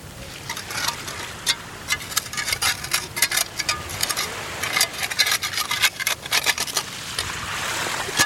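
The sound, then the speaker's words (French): Hand tools scrape encrusted oil layers off Breton granite rocks on a beach, making many irregular rasping strokes in quick clusters over a low background hiss. “Une par une, on gratte les couches de pétrole qui s'incrustent dans le granit breton.”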